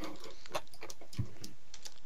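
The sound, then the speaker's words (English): Typing on a computer keyboard: a quick, irregular run of crisp key clicks taps out a short search entry at moderate loudness, with no voices. “All I have to do is type in L and Leafy comes up.”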